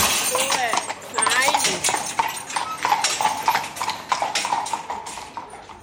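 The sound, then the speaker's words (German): Horses' hooves clip-clop steadily as they pull a well-filled carriage back to the stable after a compost round. The many quick, irregular hoof strikes run under a voice talking. “Unterdessen ist die Kutsche gut gefüllt und die Rosse kommen langsam Hunger über. Die Komposttour ist fertig, jetzt geht es zurück in den Stall.”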